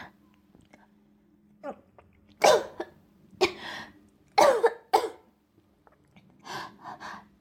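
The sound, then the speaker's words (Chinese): Harsh coughing after choking on water comes in several loud, ragged bursts. Short pauses with faint breathy gasps separate them. “刚刚喝水不小心呛了一下。”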